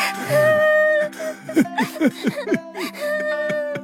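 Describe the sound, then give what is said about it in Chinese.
A daughter crying in an audio drama, a run of short, catching sobs and whimpers with a pitch that drops on each one, over sustained background music. “女儿，不哭，不哭啊！”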